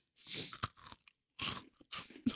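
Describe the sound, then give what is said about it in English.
A small, hard cookie crunches right at the microphone. Several crisp, crackling bites and chews come in short bursts with brief silent gaps between them. “Here, I'm going to eat this in the mic, okay? Oh, hear this. This is the smallest little crumb, okay? Oh, my gosh. Do you hear that? That thing is hard.”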